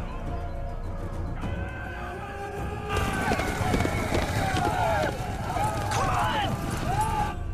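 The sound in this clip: Horses galloping fast and hard over hills under a band of riders, a rapid drumming of hooves that grows heavier after the first few seconds, with whinnies breaking through the pounding.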